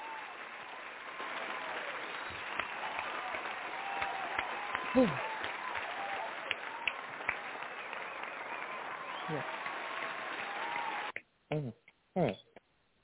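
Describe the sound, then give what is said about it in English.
A crowd gives a round of applause at a live event. The dense, even clapping holds steady for about eleven seconds, then cuts off abruptly, followed by a couple of short bursts of sound, with voices present. “I'm going to give this round of applause while I feature King.”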